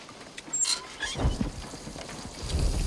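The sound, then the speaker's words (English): A distant thunderstorm out beyond the mountains gives deep, low rumbles of thunder that swell and fade over a steady hiss of falling rain. “Don't get your hopes up. Them storms never make it past the mountains.”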